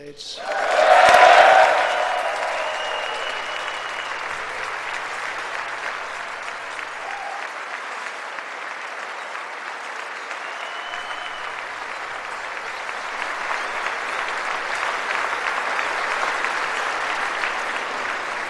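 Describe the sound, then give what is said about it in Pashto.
Members of Congress applauding a presidential address in the chamber, with a loud burst of clapping at the start that settles into long, sustained applause and swells slightly again later. “د کانګرس په کانګرس کې جمهور رئیس ټرمپ کوم پلویان دي هغوی چکچکې کوي”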